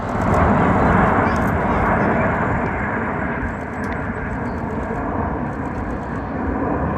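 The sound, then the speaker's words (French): Jet roar from the Alpha Jet aircraft of an aerobatic team flying over New York: a steady, loud, broad rumbling roar, strongest at the start and easing slightly as it continues. “Ce que vous entendez là, c'est la patrouille de France qui était dans le ciel new-yorkais tout à l'heure, Liberté 250.”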